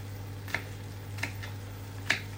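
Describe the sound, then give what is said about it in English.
A knife chops two cloves of garlic while meat and pancetta brown in a pan nearby: a few soft, sharp taps spaced unevenly over a low, steady hum, with no talking. “I've got the two cloves of garlic here, about to cut those up.”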